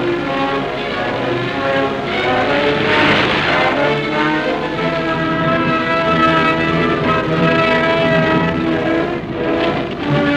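Droning engines of a second wave of Stuka dive bombers flying in during the German airborne landing on Crete: a loud, steady, harmonic roar that holds throughout with no voices.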